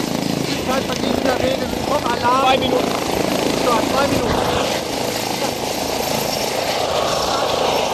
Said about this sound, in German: Jetzt hören wir gleich die Triebwerke fahren noch mal ein Stückchen höher. Und der Rotordrehzahl geht auf Flugdrehzahl.